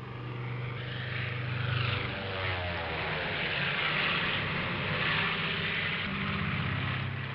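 Steady, loud propeller engine drone from a Sopwith biplane before takeoff. The engine runs as a continuous, rumbling hum with no voices over it.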